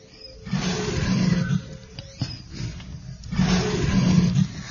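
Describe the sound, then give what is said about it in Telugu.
Lion roaring in a forest, deep rumbling growls rising in two long, loud bursts with a rougher, quieter stretch between them. “అకస్మాత్తుగా అతనికి ఒక సింహ గర్జన వినిపించింది.”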